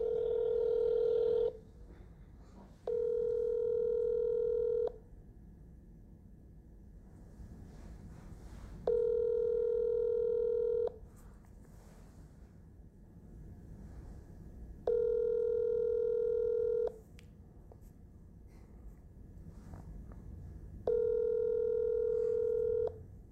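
An outgoing phone call ringing out unanswered: five long, steady-pitched ringback tones, each about two seconds, repeat with quiet gaps of faint background noise between them.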